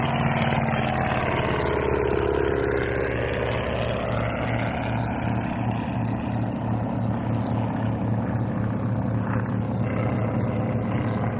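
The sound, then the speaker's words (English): Propeller aircraft engine of a Dart on takeoff, holding a loud, steady, unbroken drone with a low humming pulse under it, with no talk. “On a low flyby. This is a dart on a takeoff.”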